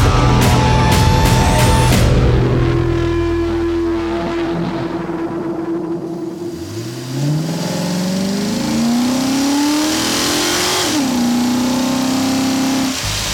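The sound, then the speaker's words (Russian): A car engine revs hard as the car speeds off toward the highway. A low engine tone climbs steadily in pitch, dips briefly, then holds loud and high, with no talk. “Машина понеслась в сторону шоссе.”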